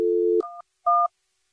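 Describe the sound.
Telephone dialing an outgoing call: a steady low dial tone, then two short, brighter dual-tone keypad beeps separated by a brief gap, clean and alone.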